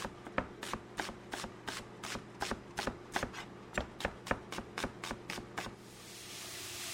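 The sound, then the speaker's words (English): A knife slices an onion for rice pilaf with many quick, evenly spaced crisp cuts in a steady rhythm. The cuts are faint and heard alone, with no voices. “Just a little onion sliced up.”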